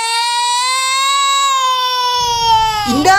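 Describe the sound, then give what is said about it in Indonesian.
A child crying: one long, loud, high wail held steadily for over two seconds, followed by rustling noise and a brief rising whimper at the end. “Dan tiba-tiba, ada suara anak menangis.”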